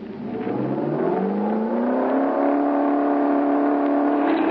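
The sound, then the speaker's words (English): A car engine revs at full throttle during a road test, its pitch climbing quickly and then holding as a loud, steady, high drone with no talk over it. “Throttle her full.”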